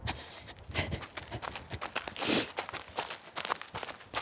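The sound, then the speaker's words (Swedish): Footsteps of people jogging outdoors in Turkey: a rapid, steady run of crisp footfalls on the ground, with a brief whoosh of noise partway through. “Okej hörni, det är dags. Vi börjar jogga igen.”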